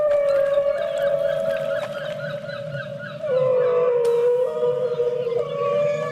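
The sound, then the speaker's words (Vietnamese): Whale song: a sustained, mournful tonal moan with rich harmonics, loud and continuous, holding steady and then stepping to a slightly lower pitch midway. “Đó là tiếng cá voi hát đấy”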